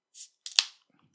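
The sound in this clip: A can of Diet Canada Dry soda being opened: a brief hiss and then a couple of sharp snapping cracks with a quick fizzy tail, heard alone and followed by quiet.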